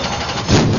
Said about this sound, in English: Hear that? That's the sound of summer at full throttle. Introducing Fix It Forward Speedway.